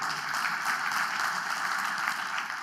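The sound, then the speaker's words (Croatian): Audience applause fills a hall with dense, steady clapping that holds at an even level throughout, with no voices over it. “dajte pljesak, da, jer je baš smiješno to”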